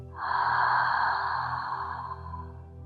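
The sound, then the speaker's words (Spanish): A single slow, deep breath, an airy rush that swells quickly, holds, and then gradually fades, heard alone. “Toma tres respiraciones profundas. Inhala por la nariz. y exhala por la boca.”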